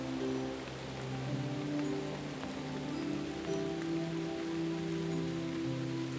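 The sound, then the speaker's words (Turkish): Steady rain falling on surfaces, a soft, continuous patter of drops that stays even throughout, with gentle sustained musical tones underneath. “Ah yağmuru dinlemeyi ne kadar severmiş Emi. Emi yağmurun şarkılarını dinleyerek yürümeye devam edermiş.”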